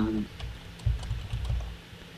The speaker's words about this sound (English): if you want to call with a different character than the Sayer, I'll just type stuff in that would be relevant.